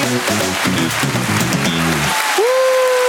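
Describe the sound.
An applause sound effect: a steady wash of clapping hands that carries on throughout, with sustained tonal notes underneath at first and a lone held tone near the end.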